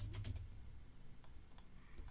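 Faint typing on a computer keyboard: a quick cluster of light keystroke clicks near the start, then a few isolated taps spread across the rest.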